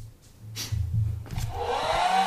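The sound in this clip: A hair dryer blows in a sound-guessing game. A low hum gives way to a broad, rushing airflow that grows steadily louder, with a thin whine joining toward the end.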